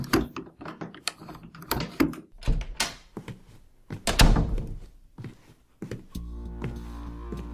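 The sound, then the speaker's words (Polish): A door lock being opened: a run of sharp mechanical clicks and dull thunks at uneven intervals, ending in a steady low hum. “Zamek w drzwiach otworzył się.”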